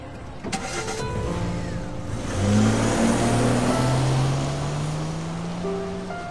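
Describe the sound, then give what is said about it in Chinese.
A car drives away, its engine hum rising slightly in pitch as it accelerates over a steady wash of broad road noise. No voices are heard. “许言转身上车，头也不回地开走。”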